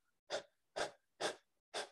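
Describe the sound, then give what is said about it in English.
A voice imitates fast, stressed breathing with four quick, evenly spaced breaths. Each is a short, forceful, airy huff, and no one talks. “say a stressful moment's happening and you're breathing like this,”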